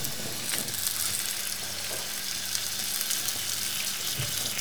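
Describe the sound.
Butter foams and sizzles in a hot pan, giving a continuous, even crackling hiss at a steady moderate level throughout with no pauses.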